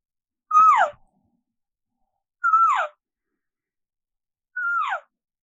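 Three cow elk calls imitated with an elk caller, each a short nasal mew that slides downward in pitch, evenly spaced with silence between them and no talk.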